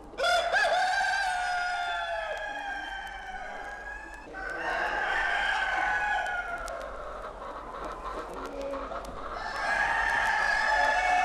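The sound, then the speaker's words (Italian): A rooster crows in a farmyard where laying hens are kept: loud, long, drawn-out crows with ringing harmonics follow one another with hardly a break, and other fowl sounds blend in around them. “Ed ecco, tra il canto del gallo impettito e sospettoso, il cocodè delle galline ovaiole indaffarate e pettorute,”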